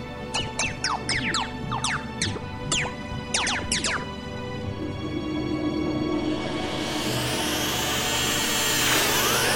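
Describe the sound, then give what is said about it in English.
A fictional paradise machine powers up with bursts of quick chirping electronic sweeps, then a steady hum that swells into a loud, rising whoosh at the end. “Activate the paradise machine.”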